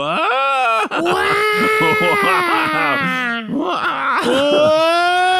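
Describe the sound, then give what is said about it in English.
A baby cries and wails loudly in long, sustained, quavering cries broken by a few brief catches of breath, with the pitch sagging slightly through the longest cry. “That poor little baby has found another gear and is crying, just wailing now.”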